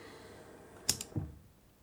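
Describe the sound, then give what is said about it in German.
A cassette is pushed into a player: two quick, sharp plastic clicks, then a softer, low clunk as it seats, all faint and alone in near silence. “Ich lege Ihnen schnell die Kassette ein.”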